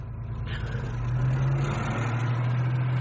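A taxi cab's engine pulls away: a steady low drone that swells slightly in loudness and then holds at an even level, with no voices.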